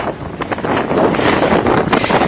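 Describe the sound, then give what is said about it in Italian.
Strong wind buffets the microphone in loud, rough, continuous gusts outdoors near a small fenced farmhouse. “C'è moltissimo vento.”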